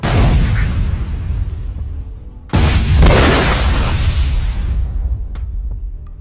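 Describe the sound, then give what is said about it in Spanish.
An explosion blows up a government house with a loud, roaring, crackling blast. It breaks off abruptly partway through, then surges again into a second long, rumbling burst that slowly fades. “Al parecer, uno de los candidatos hizo explotar la Casa de Gobierno.”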